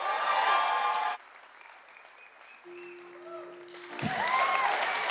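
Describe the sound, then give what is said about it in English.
An audience applauds for a performer. A burst of loud clapping breaks off after about a second, a quieter stretch follows, then the applause swells back up strongly. “Put your hands together. Let's get loud for Lucas Silvera.”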